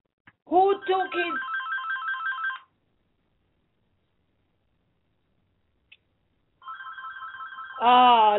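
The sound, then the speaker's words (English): A telephone rings in two separate bursts of repeating electronic trills, bright and steady, with a long quiet gap between them; a voice overlaps briefly at the start and at the end. “I just got distracted by the phone.”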